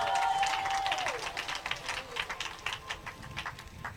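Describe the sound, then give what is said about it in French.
An audience applauding during a church service, with many quick, overlapping claps at a fairly soft level that thin out slightly toward the end. “Acclame Jésus de Nazareth.”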